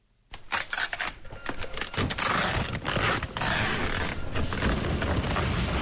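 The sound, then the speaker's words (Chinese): A printer churns out express delivery labels in an e-commerce workshop, a dense mechanical clatter and rattle that runs steadily with uneven bursts of sharper clacks. “对着电脑里的下单记录一张张打印快递单”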